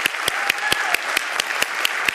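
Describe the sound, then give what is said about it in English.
An audience gives a standing ovation, with steady, rhythmic loud clapping that beats evenly throughout under a continuous wash of applause. “So I'd ask you all to stand up. And we are going to welcome these three with a rousing standing ovation.”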